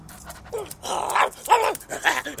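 A bald, hairless dog whimpering and yelping in several short bursts that arch up and down in pitch, with panting breaths between them at moderate loudness.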